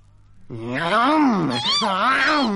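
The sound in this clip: A long, drawn-out meow in a children's story about a cat and a little mouse, wavering up and down in pitch and sustained loudly for about two seconds.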